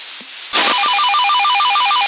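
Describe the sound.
A WhatsApp notification tone from a phone, picked up over a CB radio channel, sounds as a loud, continuous warbling trill that alternates between two pitches. It enters abruptly after a few faint blips and carries on to the end, with no voices.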